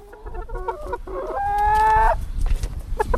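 Hens clucking and a rooster crowing in a backyard henhouse in a family home's garden: a few short clucks, then one long, loud crow, then more scattered clucks.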